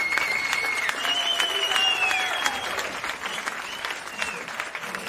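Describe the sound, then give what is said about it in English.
Live studio audience applause from a sound effect: a dense, even roll of many hands clapping with some crowd noise. It softens somewhat over about five seconds. “Got that live studio audience again here, Randy. Keep following you around, your fans.”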